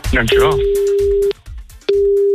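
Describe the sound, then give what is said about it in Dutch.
Ringback tone of an outgoing international telephone call: a steady, mid-pitched electronic tone lasting about a second, a short pause, then the tone again. A voice talks briefly just before the first tone. “Let's go, we gaan bellen met het buitenland.”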